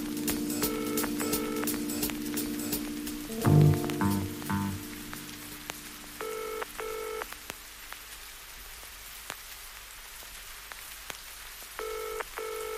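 Telephone handset signal tone sounds in a few short groups of repeated electronic beeps, separated by long pauses, over a steady crackling, rain-like noise.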